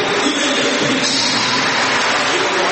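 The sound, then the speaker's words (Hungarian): An audience in a church applauds the pastor. The clapping forms a thick, even roar of many hands, loud and sustained without a break through the whole clip, with no voices above it. “Tapsoljuk meg nagyon.”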